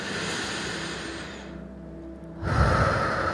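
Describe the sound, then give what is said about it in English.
Deep breathing during a guided relaxation exercise: a long, soft, airy breath gives way to a louder, fuller rush of air as the breath is pushed out, with no talking. “Let's do that again. Nice and deep breath. And all the way out. Again.”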